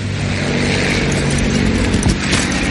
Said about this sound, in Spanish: Varios cazas de las fuerzas aliadas sobrevuelan Ramen.